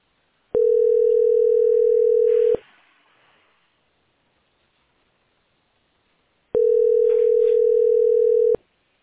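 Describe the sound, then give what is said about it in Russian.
Telephone tone heard while placing a call: two long, steady, unbroken tones of about two seconds each, separated by a gap of silence, with no voices. “Я позвонила еще раз. Теперь вообще никак не дозвонит. Сейчас вот дозвоню, может.”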